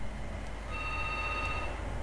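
Faint electronic ringing of a telephone line while a call is being placed, with thin steady tones that sit under a low background hum and carry no talk.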